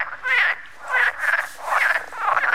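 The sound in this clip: Frogs croaking in spring during spawning time, a run of raspy, pulsing croaks in several bursts with short gaps, fairly loud and alone.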